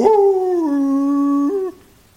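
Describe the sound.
A voice imitating an old bloodhound howling on a front porch: one sustained mournful "ooh" that drops lower partway through, lifts briefly, then cuts off.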